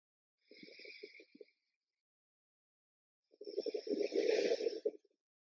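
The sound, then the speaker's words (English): A deep breath in, heard as two slow, airy breaths with a slightly rasping, snore-like edge. The first is short and soft; the second is longer and louder. “Let's all take one more deep breath in here.”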